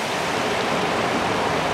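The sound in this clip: Rainwater runs in streams along a street, a steady, dense rushing hiss of flowing water that holds an even level throughout, with no voices.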